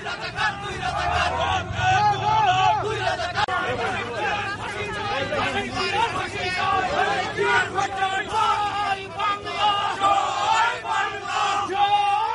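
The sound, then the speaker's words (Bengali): Protesters chant slogans outside the White House, demanding faster war crimes trials and denouncing the BNP-Jamaat alliance. Many voices shout loudly and in rhythm, one slogan after another, over a steady crowd murmur. “যুদ্ধাপরাধীদের বিচার দ্রুত করার দাবিসহ BNP জামাত জোটের বিরুদ্ধে নানা slogan দেন তারা।”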